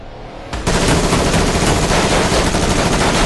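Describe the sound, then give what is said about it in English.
Loud rifle gunfire is aimed at a metal case. After a quieter half-second it bursts into rapid shots that merge into a dense, continuous roar lasting to the end. “He slides a rifle out of the passenger seat. He aims it at the Condor.”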